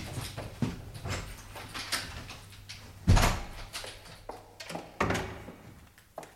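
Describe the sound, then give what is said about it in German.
A door being opened, heard as a run of soft knocks, clunks and rattles of the mechanism over a low steady hum, with no talk. “Ach, sehen Sie mal. Seine Tür steht hier offen. Na, da will ich ihn mal überraschen.”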